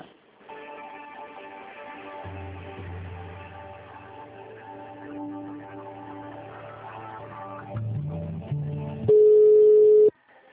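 Telephone line on hold: a steady electronic tonal pattern of layered, sustained notes with a low droning part underneath, ending in a louder, steady single-pitched beep.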